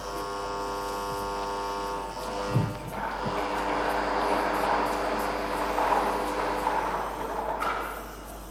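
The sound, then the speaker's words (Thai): A Thai government lottery drawing machine spins its numbered balls before a special three-digit prize draw, giving off a steady mechanical whir and drone that swells a little in the middle before easing back. “ทำการหมุนอุปกรณ์ออกรางวัลเพื่อให้ลูกบอลหมายเลขได้คล้ากันก่อนที่จะทำการออกรางวัลค่ะ”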